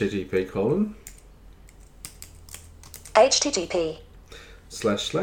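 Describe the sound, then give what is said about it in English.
A web address is typed on a computer keyboard in quick bursts of light plastic key clicks, with speech between the bursts of keystrokes. “Okay, that's the web address that I need to type in. And I'm just going to put myself in editing mode with VoiceOver. Quick nav off. Type in the web address for the Vision Australia Online Eye Access Service.”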